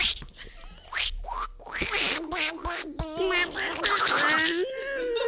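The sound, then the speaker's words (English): A human voice imitates a cartoon duck, making raspy, garbled, high-pitched quacking squawks in several quick bursts that run for about five seconds. “I feel like Donald Duck would look you up and down and go... Was it Gaston? Wait, do that again. Do it again. Do Donald Duck. Do it.”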